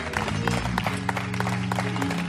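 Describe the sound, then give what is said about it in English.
An audience at a worship service claps hands in praise for its young adults. The clapping is fairly soft and continuous, blended with sustained musical tones. “Let's give our young adults a hand clap of praise.”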